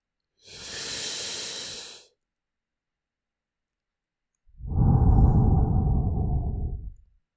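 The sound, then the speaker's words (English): One deep cleansing breath: a long, airy, hissing inhale of about a second and a half, a pause, then a louder, fuller exhale with a lower, rushing tone, with no talk. “close your eyes and for a few seconds, take a deep cleansing breath.”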